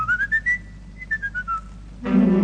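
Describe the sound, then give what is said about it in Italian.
Whistled imitation of a blackbird's song in an Italian song about a blackbird on Lake Como: bright, clear, high notes in two quick phrases of short chirps. A louder, denser burst of sound begins near the end. “Su quel ramo del lago di Como c'è un merlo che fa.”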